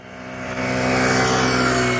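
A car engine accelerates through a driving-lesson slalom, swerving at 40 km/h without braking: a steady, loud motor drone with a rich harmonic hum that builds over the first half, then holds level.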